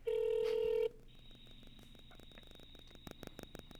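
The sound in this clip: A telephone ringback tone heard over speakerphone while calling someone in Australia: one loud, steady electronic tone, then quieter line noise with a thin high whine and a few soft clicks.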